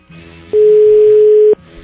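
A telephone tone sounds while a caller redials: a single loud, steady mid-pitched tone holds for about a second, then cuts off abruptly, with faint background noise before and after.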